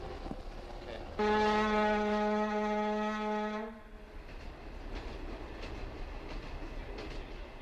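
Train horn at London's Euston Station as a train arrives: one loud, steady blast of about two and a half seconds, then a low, continuous rumble of station noise.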